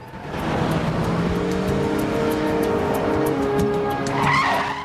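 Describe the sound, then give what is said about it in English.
A saloon car skids into a parking lot fenced with wire mesh, its tires squealing long and loud over the engine's steady drone. The screech holds across the whole clip, with a brighter burst near the end. “The saloon slews right into a parking lot surrounded by wire mesh fencing, topped with loops of barbed wire.”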